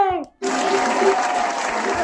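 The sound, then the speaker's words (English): Applause breaks out for a birthday right after a brief voice and a short pause, then continues as a steady, fairly loud clatter of clapping to the end. “Applause! Applause!”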